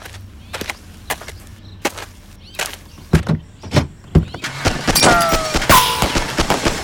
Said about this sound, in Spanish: ¡Están disparando! ¡Cúbranse! ¡Corran pa'l monte! ¡Es una emboscada! ¡Salen disparos por todos lados!